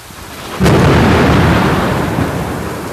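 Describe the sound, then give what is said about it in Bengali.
Thunder during a rainstorm: a sudden sharp crack bursts over a background hiss of rain and swells into a loud, broad rumble that slowly fades over a few seconds. “বজ্রপাতটা প্রচুর, কোনো এক কারণে অনেক বেশি বজ্রপাত আজকে হচ্ছে আর কি।”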